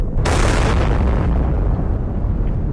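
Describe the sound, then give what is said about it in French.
A nuclear test bomb detonates atop a metal tower more than 30 metres tall, a sudden loud blast that swells into a dense, sustained roaring rumble lasting to the end, with no voices. “À 5h29 précisément, la mise à feu est déclenchée. Pendant une fraction de seconde, la nuit devient jour. Une lumière aveuglante apparaît, visible à plus de 300 km.”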